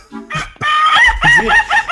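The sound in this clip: A rooster crows in one loud, drawn-out call with wavering tone, preceded by a few brief lower sounds.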